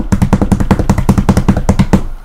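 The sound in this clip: Hands tap on a table in a deliberately uncoordinated mock drumroll, a loud rapid run of many dull knocks that stops abruptly near the end.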